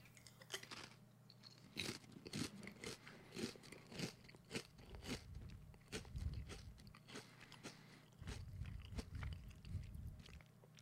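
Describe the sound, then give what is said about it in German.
Faint crunching and chewing of a spicy potato chip, many crisp bites and crackles in an uneven rhythm, with no talking. “probiere nochmal einen von den scharfen Chips”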